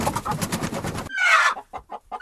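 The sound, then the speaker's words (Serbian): Hens in a henhouse cluck in a few short, clipped bursts that follow a busier, noisy opening. “I koke su se u svojim živinarnicima na vreme pobrinule da snesu dovoljno svežih uskršnjih jaja.”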